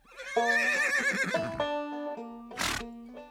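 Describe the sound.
A cavalry horse whinnies loudly, a quavering neigh with rich harmonics that wavers and trails off. A short, breathy blast follows after a brief pause.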